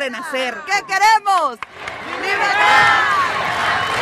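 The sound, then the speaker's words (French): A large crowd chants and cheers "Liberté" in front of the main stage at the Venezuela Aid Live concert near the border. A short spoken passage comes first, then a dense, steady roar of many voices swells and holds. “Liberté, scande le public devant la grande scène du Venezuela Head Live”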